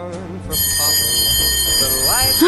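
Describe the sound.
A school bell rings, a loud, continuous electric ringing that starts abruptly after a short pause and holds steady to the end, with a voice briefly heard beneath it.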